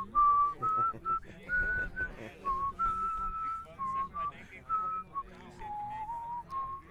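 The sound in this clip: Someone whistles a tune: a clear, steady line of sustained notes that step up and down in pitch, over a busy low background.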